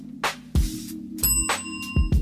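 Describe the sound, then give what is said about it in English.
A hand bell rung repeatedly, giving several bright metallic strikes. Their ringing tone lingers and overlaps between the strikes. “The fuck is going on with the bell? Ringing a bell on a podcast is not the norm.”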